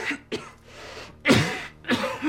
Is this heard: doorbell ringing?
no

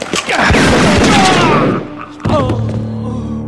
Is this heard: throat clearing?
no

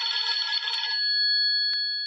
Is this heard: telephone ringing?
yes

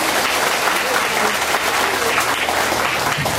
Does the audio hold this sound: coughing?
no

